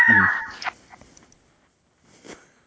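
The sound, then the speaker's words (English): A dog reacts noisily as someone comes in, with a loud whining burst at the start that quickly fades, followed by a few faint, soft sounds. “Is your dog getting attacked by a chicken? No, my daughter's coming in. Oh. And he's short, and he can't see. And then now he sees her, and he's like, okay.”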